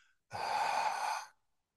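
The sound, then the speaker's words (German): A single breath exhaled through the open mouth during a breathing exercise, a soft airy rush lasting about a second, quiet and alone. “Halten, halten und durch den offenen Mund wieder ausatmen.”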